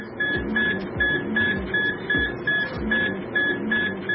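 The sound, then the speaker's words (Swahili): A dialysis machine at a hemodialysis centre in Yaounde, Cameroon, draws blood from kidney patients with a steady mechanical pumping rhythm, regular pulses roughly twice a second, each paired with a short high tone. “Mashine maalumu ya kusafisha damu, dialysis machine, katika kituo kimoja cha hemodialysis kwenye mji mkuu Yaounde nchini Cameroon, inatoa damu kutoka kwa wagonjwa wa figo,”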